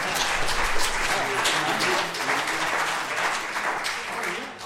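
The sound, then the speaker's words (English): A live audience applauds a band: dense, steady clapping that runs through the whole stretch and eases slightly at the end, with voices over it. “We thought we'd get more applause than that, but that's all right.”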